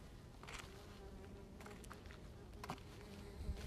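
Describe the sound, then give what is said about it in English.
A bee buzzes after a dog steps on it, giving a faint, continuous low drone with a few brief louder flickers throughout. “that's a bee. My dog stepped on a bee.”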